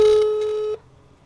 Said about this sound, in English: Let's call him directly from my cell phone. And that should be fine. It's live radio.